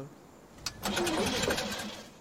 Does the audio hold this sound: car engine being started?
yes